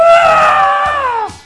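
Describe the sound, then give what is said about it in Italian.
A single loud, sustained liberating scream from one voice, holding a high, strained pitch before sliding down as it breaks off near the end. “noi facciamo un urlo liberatorio, sai che con l'urlo funziona sempre. Fai un urlo, apri la finestra e butta via tutto quello che hai dentro”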